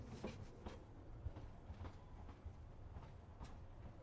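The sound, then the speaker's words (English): A train passes, faint and low: a soft rolling rumble carries throughout, marked by a few irregular clickety-clack knocks of wheels over the rails. “Where's this train going?”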